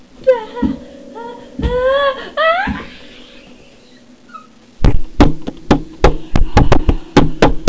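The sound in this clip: Knocking on a door comes in a rapid run of many sharp, loud raps, preceded by a stretch of whimpering, crying-like sounds and a quiet pause.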